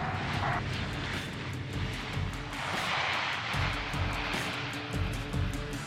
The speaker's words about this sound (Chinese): 各位旅客您好，请您系好安全带，准备降落。